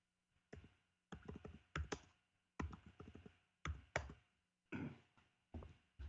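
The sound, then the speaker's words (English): Typing on a computer keyboard: several quick bursts of clicking keystrokes separated by short pauses, fairly quiet, with no voices. “I want you to type into your computer Kelly Kelly.”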